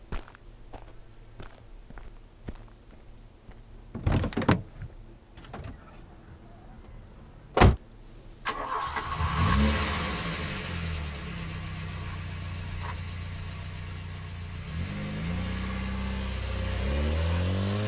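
Footsteps and a few thuds lead to one loud car door slam. A car engine then starts and revs, and a steady engine rumble continues as the car drives away.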